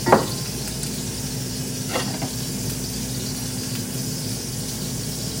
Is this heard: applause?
no

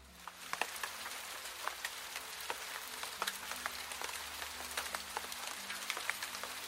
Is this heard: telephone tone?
no

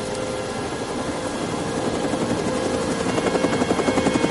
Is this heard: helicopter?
yes

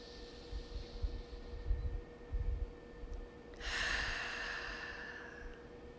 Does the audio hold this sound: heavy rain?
no

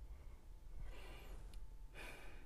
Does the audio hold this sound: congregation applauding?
no

